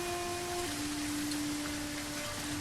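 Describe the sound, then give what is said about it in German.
Rain recorded with heavy clipping distortion, a steady, dense, harsh hiss that stays level and unbroken from start to finish. “Regen, der übersteuert.”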